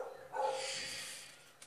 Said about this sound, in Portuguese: Ó, o cachorro faz um discurso de ódio, agora fica muito mais alto por conta do eco da porra do quarto.